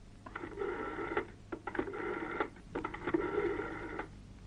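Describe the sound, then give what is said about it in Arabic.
A telephone being dialed to place a call, with bursts of harmonic electronic tones in three rhythmic groups over a low steady hum, each burst made of rapid pulses, fairly faint and without talk. “يلا اضرب له تليفون”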